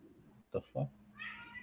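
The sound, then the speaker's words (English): A cat meows, a faint, high, drawn-out call near the end that comes after two brief, short sounds. “Weird ass cat.”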